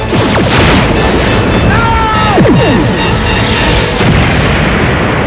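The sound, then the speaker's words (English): A starship firing photon torpedoes in a science-fiction battle: loud, dense, continuous blasts and booms, overlaid with swooping tonal sweeps that rise and fall. “Get down! Firing photons.”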